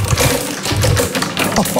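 A prize wheel spun hard to the left clatters through a fast, dense run of loud clicking ticks that continues without a break.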